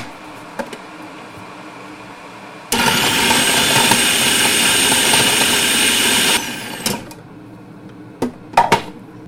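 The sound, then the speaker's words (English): A food processor whirs as it chops a clove of garlic: a loud, steady grinding roar of a few seconds, with light clatters and clicks before and after. “Right, so I'll pop that into the food processor and just whiz that up.”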